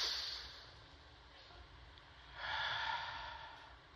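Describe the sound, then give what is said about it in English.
A deep breath in through the nose and out, with a soft, airy inhale followed by a louder, breathy exhale. “Nice deep breath. In through the nose. Out she comes. One more time.”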